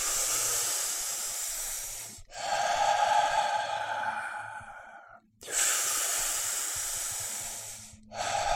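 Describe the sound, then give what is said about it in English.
Slow breathing through the nose: long, hissy, airy breaths of about three seconds each, separated by brief pauses, steady and even in loudness. “Maybe breathe through your nose if you want to breathe slower and get a little more relaxation into it”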